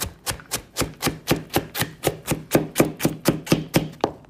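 Carrots being chopped: many crisp, sharp strikes in a steady, even rhythm of about four per second, each evenly loud, with no voices.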